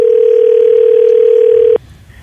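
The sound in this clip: A telephone dial tone sounds while a call is being placed: a single loud, steady, unbroken tone that holds for nearly two seconds and then cuts off abruptly into faint background.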